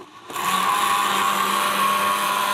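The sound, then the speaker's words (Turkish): An electric whisk beats a runny batter for milk börek, switching on abruptly after a moment of quiet and then holding a loud, steady whirring motor drone. “Şöyle güzelce çırpıyorum.”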